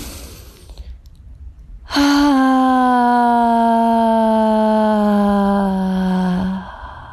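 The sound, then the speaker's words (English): A deep breath let out as a loud, drawn-out voiced sigh. The sustained tone glides slightly lower over about four seconds and follows a short quiet stretch. “I want you to really let go on that breath. One, two, and three.”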